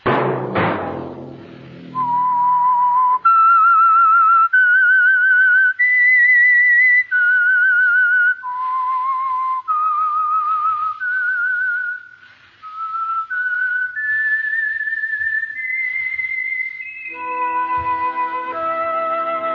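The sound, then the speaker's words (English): A solo whistled theme tune for a mystery drama: clear, sustained notes step up and down in a slow, haunting melody. It opens with a brief sharp burst and closes with fuller, layered instrumental notes. “Let that whistle be your signal for the Signal Oil program, The Whistler, each Wednesday night at this same time.”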